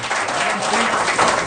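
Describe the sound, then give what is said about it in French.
Audience applause greets a guest at a live event in a microbrewery: steady, dense clapping from a crowd that holds an even loudness for its short span, with no voices heard over it. “Nul autre que Monsieur Robert Lepage, qu'on applaudit.”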